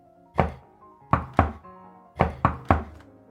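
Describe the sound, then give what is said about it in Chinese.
Knocking on a hotel room door in a prearranged signal: six hard, hollow knocks grouped one, two, then three, each sharp and ringing briefly, with no voices. “在距离约好时间还有10分钟的时候，他站在502房间门口敲响了那扇房门。”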